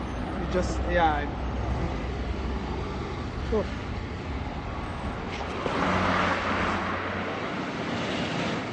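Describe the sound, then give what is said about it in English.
Heavy city traffic in a war-damaged city, with many cars forming a continuous dense roar and engine noise swelling as vehicles pass. “the traffic is horrific. The number of cars is unbelievable. So many cars, and the pollution,”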